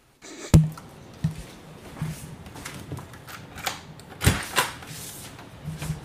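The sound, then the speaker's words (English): A closet door being opened: a sharp click, then a few softer knocks and a louder thump, with faint rustling between them. “So, per the host's wishes, I will open the door to my closet.”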